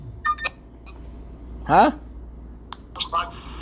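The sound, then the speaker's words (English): A mobile phone interrupts with brief electronic beeps and a warbling chirp. A few short, thin tones sound at low level over a faint background hum. “Sorry, my phone interrupted me.”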